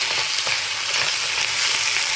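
Food frying in a kitchen pan gives off a steady, dense sizzle, an even crackling hiss that holds at the same level throughout, with no voices.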